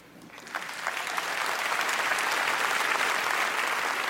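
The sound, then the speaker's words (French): Standing ovation applause after a speech: dense clapping from a large crowd swells in the first second and then holds as a steady, loud, even roar to the end. “S'ensuit une standing ovation, et le premier à se lever est Nick Clooney”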